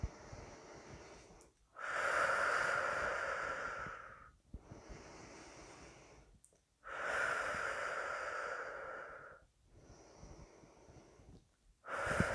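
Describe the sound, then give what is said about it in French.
Slow, deep breathing during a guided breathing exercise: two full cycles of a long, louder airy breath followed by a softer one, each lasting a few seconds, with a third breath just starting at the end. There is no talk. “Inspiration pour activer l'énergie. Expiration pour la laisser s'installer.”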